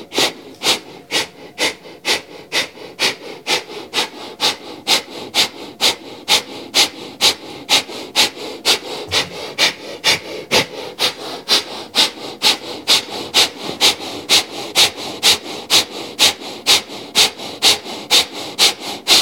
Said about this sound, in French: on inspire avec le nez et on expire rapidement avec le nez